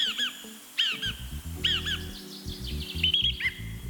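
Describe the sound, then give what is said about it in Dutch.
A song thrush sings in a city songbird contest, giving a few bright whistled phrases separated by short pauses over a low humming background. “En kandidaat is onder meer de zanglijster. Komt-ie.”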